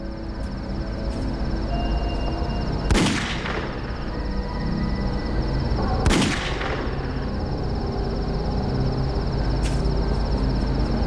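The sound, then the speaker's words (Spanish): Two gunshots ring out as a sound effect, each a sharp loud crack with a trailing decay, spaced about three seconds apart over a steady background hum. “Le disparó a Gunnarsson 2 veces en la cabeza y luego comenzó a ocultar su crimen.”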